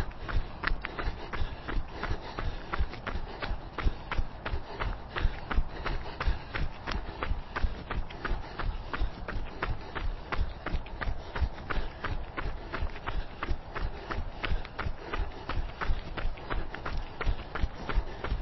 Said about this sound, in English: Okay, back to your jog.